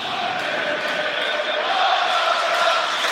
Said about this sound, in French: Et ça a totalement réveillé le public de Diochon. Qui y croit de nouveau à 45 minutes de la fin de ce match.